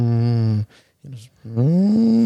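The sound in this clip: A man's voice imitates an engine but comes out as a low, droning, cow-like moo in two long sustained tones, split by a short breathy gap.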